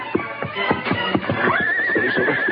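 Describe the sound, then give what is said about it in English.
Galloping horse hoofs approach near a camp outside a town, a fast, steady drumming of hoofbeats with a horse whinnying loudly partway through. “he heard the fast beat of galloping hoofs approaching”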